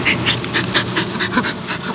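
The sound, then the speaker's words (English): A chimpanzee pant-laughs while a woman tickles it during play, giving rapid, rhythmic, breathy pants repeated many times in an even stream. “That panning sound you hear is chimpanzee laughter.”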